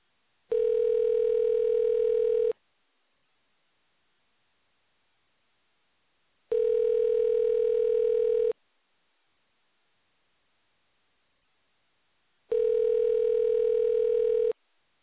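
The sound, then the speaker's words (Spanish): An outgoing telephone call rings out with three steady ringback tones. Each tone lasts about two seconds and is followed by roughly four seconds of silence, and no voices are heard. “Vamos a intentarle una vez más aquí a nuestro amigo Kelly Pavlik, a ver si ya llegó a su destino, a ver si nos contesta.”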